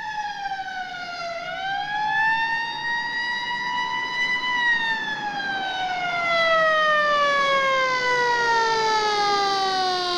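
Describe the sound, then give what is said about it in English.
Wailing emergency siren from an ambulance escorted by a police car, racing into an unlit parking area: one loud, steady tone that dips, climbs slowly, then glides down again, heard alone. “Into an unlit parking area screamed the ambulance and escorting police car.”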